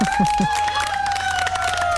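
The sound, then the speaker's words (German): Audience applause for a music teacher, a scattered burst of clapping with a steady high tone running through it and a few low thuds at the start. “Ein Applaus nochmal für Karin.”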